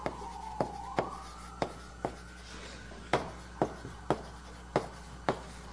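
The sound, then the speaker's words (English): Writing on a board during a lecture on order statistics: short tapping strokes land at a fairly even pace, quiet above a low, steady hum. “And I'm also going to write down explicitly an assumption about the random numbers.”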